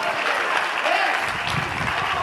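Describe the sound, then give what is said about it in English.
A church audience claps its hands during a worship service, a dense, continuous patter of many hands held at steady, fairly loud level from start to finish. “Go ahead and clap your hands.”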